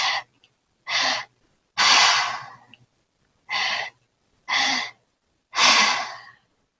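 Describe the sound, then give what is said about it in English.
Breathing exercise with inhales drawn into the lower belly and then the high chest, and exhales through the mouth: several airy breaths separated by silence, with no talk. “so the first inhale to lower belly, second inhale to high chest, and exhale all through the mouth”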